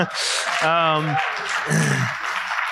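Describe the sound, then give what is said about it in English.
An audience applauds its new lead pastor on his first official day at a church service: a brief, fairly steady wash of clapping with voices rising over it throughout. “so I certainly didn't do that to elicit a hand clap, but I appreciate the encouragement, and I'm blessed by it.”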